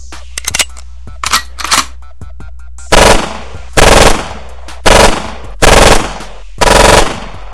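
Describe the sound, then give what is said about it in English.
Gunshots from a gun fired as warning shots: a few quieter sharp cracks, then five loud, sustained bursts of rapid fire at roughly even intervals, each about half a second long and separated by short gaps. “Let me go in the closet and get my gun. It's time to fire some fucking warning shots.”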